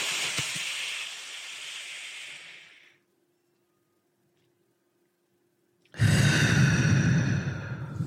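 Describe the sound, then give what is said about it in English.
A deep breath drawn in during a guided breathing exercise: a long, airy, breathy rush lasting about three seconds, then silence, then a second, louder breath with no talk. “3, 2, 1, deep breath in.”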